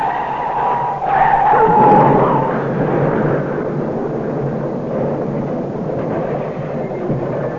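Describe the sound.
Car tires skid with a sustained high screech on the drive home from a weekend on the island, followed by a rough, loud rumbling noise. No voices are heard.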